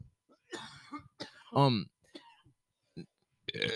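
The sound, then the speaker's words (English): A man burps after drinking a couple of beers: a few short, throaty bursts separated by silence, with one loud, voiced belch in the middle. “mind me burping, my ladies and gentlemen. I just had a couple brewskis.”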